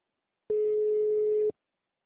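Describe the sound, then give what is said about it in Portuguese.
A telephone line signal tone from an automated phone attendant: a single steady mid-pitched beep lasting about one second, starting and stopping abruptly, alone against silence. “Após o sinal, digite o ramal desejado ou aguarde.”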